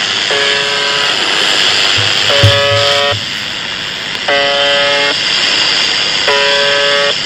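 A noisy buzzer sounds four times in evenly spaced bursts of about a second each. Each burst is a steady, reedy harmonic tone set against a constant, loud bed of static hiss.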